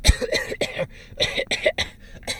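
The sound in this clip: A voice mimics the constant coughing of a grubby, sniffling classmate, producing a series of short, rough cough bursts in an uneven rhythm with brief gaps between them.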